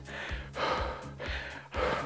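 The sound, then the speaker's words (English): Breaths are taken close to the microphone: a few loud, airy inhales and exhales in a steady rhythm, each with a breathy rush, with no speech. “And so it kind of goes in close. I breathe.”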